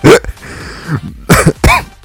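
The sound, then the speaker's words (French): A man coughs and chokes while laughing at his own jokes: a few loud, harsh coughs broken by short strained vocal sounds, with a brief pause between the first cough and the closing pair. “Voilà, je m'étouffe parce que je ris à mes propres vannes.”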